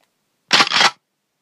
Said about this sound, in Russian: Услышав знакомые слуху клацания и щелчки, здоровяк понял, что к его голове приставили дробовик.